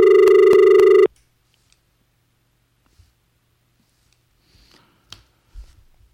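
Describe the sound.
A telephone line rings during a radio phone-in call: a single loud, rapidly pulsing ring lasts about a second, then cuts off into near silence broken by a few faint rustles and clicks.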